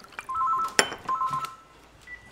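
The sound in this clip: A phone rings at home with a faint electronic ringtone of short warbling beeps in two bursts, with a sharp click between them over low background noise.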